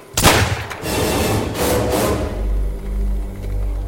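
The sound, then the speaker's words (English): A single sharp gunshot as a woman shoots herself, a loud crack at the start followed by a lingering, noisy rumble that slowly settles, with no talk. “She shot herself.”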